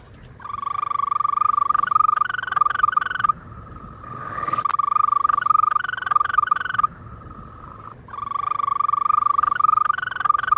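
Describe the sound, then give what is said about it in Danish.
European green toad calling in long, steady, high-pitched trills that hold an even pitch. A few sustained calls come in succession with brief pauses between them, and a short burst of noise interrupts midway. “Det er selvfølgelig den grønbrogede tusse, som vi hører det her.”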